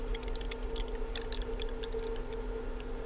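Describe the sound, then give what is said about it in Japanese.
Hot water poured from a ceramic cooling vessel into a teapot holding tea leaves makes a faint, light trickle with scattered small splashes over a steady low hum. “ちょっとなんかいいですね、この注ぐ音もね。なんか少しだけ聞いていただきましたけど”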